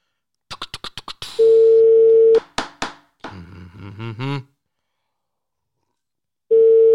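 A telephone ringing tone plays while calling someone: a rapid run of clicks, then a steady tone about a second long. Assorted clicks and other sounds fill the gap before the same tone starts again near the end.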